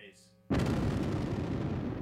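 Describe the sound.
A video game explosion erupts suddenly about halfway through, after quieter game sounds, and becomes a loud, sustained roaring rumble that holds to the end.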